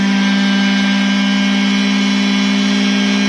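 A car engine is held at wide open throttle, producing a loud, steady droning roar with an unchanging pitch throughout.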